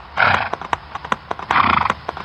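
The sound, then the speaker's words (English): A little bay mare gallops and snorts with each stride. Quick, uneven hoofbeats run throughout, with two louder breathy snorting bursts rising over them. “As if reading Sherry's mind, Nutmeg rocked back on her hocks and sprang forward with a gleeful bound, snorting happily with each stride.”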